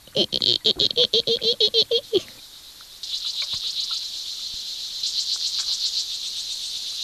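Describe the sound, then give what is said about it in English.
A water boatman insect makes a high, cricket-like sound: a fast, thin trill that repeats over and over, steady and moderately loud. A voice imitates it at the start with a short burst of rapid pulses. “What sort of sound does a boatman make? A very high, crickety sound.”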